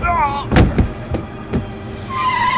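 A car starting and driving off, marked by a few heavy, dull thuds and a low vehicle rumble, fairly loud with no talk.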